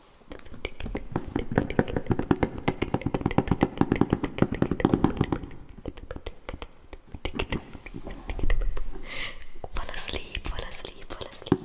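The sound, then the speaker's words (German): Soft ASMR whispering mixed with rapid, crisp tapping and knocking on objects, a dense run of small clicks under the hushed breathy voice, with a brief fuller tapping burst near the end. “Kann ich mal meine ASMR-Kiste machen?”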